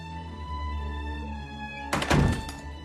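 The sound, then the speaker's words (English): A blue door is opened with a single heavy thunk and brief rattle near the end, set against a sustained tonal drone that runs underneath. “She opens a blue door.”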